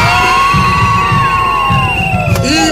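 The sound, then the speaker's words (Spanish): A crowd of women shouts and cheers in a loud, sustained, high-pitched roar, with shrill whoops rising above the mass of voices throughout. “Y decíamos hace rato, las mujeres nos superan ampliamente, así que el grito de todas las mujeres hoy aquí presentes,”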